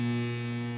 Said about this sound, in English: That's the sound of electricity.